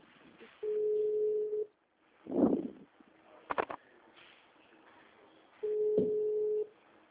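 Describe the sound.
An outgoing telephone call rings out as a ringback tone: two steady, low-pitched tones of about one second each, separated by a long gap with a few brief, faint noises.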